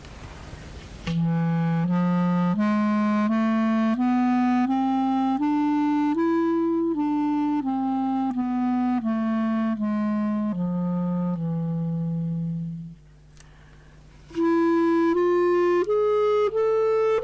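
A melody in the E Phrygian mode played on a B-flat instrument, with sustained, evenly spaced notes stepping up and then back down. After a short pause, the line resumes at a higher pitch and climbs again.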